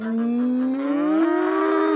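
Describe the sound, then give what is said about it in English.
Cattle give one long, loud, continuous moo, a deep, resonant bellow whose pitch rises slightly toward the end. “The cows bellowed.”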